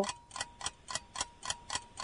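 A quiz countdown timer ticking with soft, evenly spaced ticks, about eight in a brisk, steady rhythm with nothing else over them.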